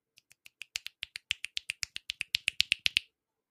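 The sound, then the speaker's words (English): Many finger snaps given as a thank-you, sharp crisp clicks in an even, quick rhythm that grow gradually louder before stopping abruptly. “That's my thank you snaps.”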